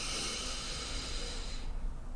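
One slow inhalation during a guided breathing exercise makes a soft, airy hiss. It holds steady for about one and a half seconds, then fades into quiet.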